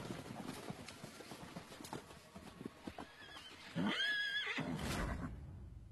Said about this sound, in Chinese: 这个马也是来回的奔跑